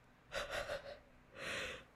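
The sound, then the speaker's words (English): A person yawning, heard quietly as breathy air sounds. A wavering intake comes in a few pulses, then a longer, smoother breath follows. No talk. “Yawning.”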